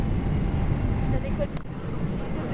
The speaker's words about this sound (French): On quitte définitivement l'Asie Il y a notre avion qui est en train d'accélérer